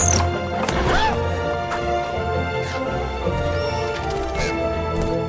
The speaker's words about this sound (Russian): Ласточка, ударившись о створку окна, падает.